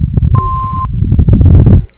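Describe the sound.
Answering machine beep, a single steady high electronic tone lasting about half a second, heard over a noisy, muffled telephone line with low rumble before and after.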